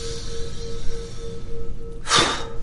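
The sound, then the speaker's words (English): Deep breath in through the diaphragm, heard as one short, sharp, fairly loud intake of air near the end, preceded by a quiet background with a faint, steady low tone. “Now, breathe in. This is whenever I do Kung Fu, I start with this breath.”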